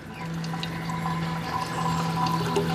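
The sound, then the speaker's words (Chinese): Distilled milk liquor, condensed from steam of fermented yogurt, trickles from the still along a slanted baffle and thin hemp cord into a container outside. The liquid pours in a steady, continuous run over a constant low hum. “遇冷凝成液体，顺倾斜的挡板和细麻绳流出蒸馏桶，滴落到外面承接的容器里。”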